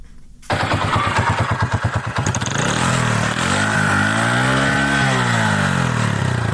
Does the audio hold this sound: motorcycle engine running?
yes